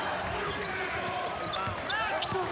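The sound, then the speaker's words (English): A basketball is dribbled during a Michigan State college basketball game, a few dull, quick bounces under continuous play-by-play commentary. “Nairn will dribble right, come top of the key.”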